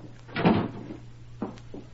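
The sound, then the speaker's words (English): A door being closed: a soft bump and a short knock with a faint trailing tap, quiet and without talk. “Close the door”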